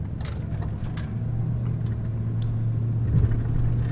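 Car engine rumble heard from inside a vehicle driving through a detour in traffic: a steady, low, droning hum that holds even throughout, with no voices over it.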